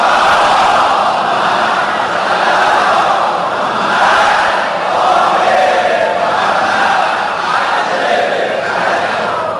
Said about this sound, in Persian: الان اینجا جمعیت متراکمه، شما بزرگواران و زائرین حرم مطهر حضرت علی ابن موسی رضا صلوات الله و سلامه علیه